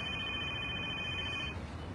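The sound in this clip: A phone rings with a high, steady electronic tone over constant low background noise, cutting off after about a second and a half.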